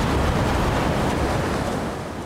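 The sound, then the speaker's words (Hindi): High sea waves and strong wind during a storm in the Sundarbans coastal area of West Bengal. A continuous low rushing roar of surf with wind buffeting stays steady, then eases slightly toward the end. “समंदर में ऊंची लहरें और तेज हवाओं ने पश्चिम बंगाल के सुंदरबन के इलाके में लोगों को अपने घरों के अंदर ही महदूद कर रखा है।”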